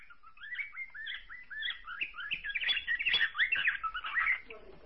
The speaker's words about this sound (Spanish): Ese es el periquito australiano.